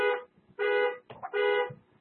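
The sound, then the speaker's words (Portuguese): A car horn honks in three loud, brassy blasts of even pitch, separated by short gaps, with no other sound around them. “Disparou uma buzina. Acabou.”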